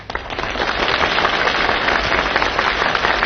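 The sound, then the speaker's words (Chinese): Dense audience applause that sounds like thunder, heard on its own as a steady wash of many hands clapping. It holds loud and even throughout. “你听管仲的掌声，掌声如雷呀”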